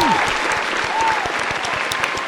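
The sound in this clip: A studio audience applauds two stand-up comedian guests as they are welcomed onto a show, with dense, steady clapping that holds at an even loudness throughout.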